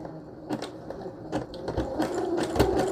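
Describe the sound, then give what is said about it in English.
Brother Project Runway limited-edition sewing machine stitching with a longer stitch length: a rapid, uneven run of mechanical clicks and whirring bursts at moderate loudness, with no voices. “on my Brother Project Runway, limited edition. And then I'm going to spread it out a little bit, like make the stitches a little bit longer.”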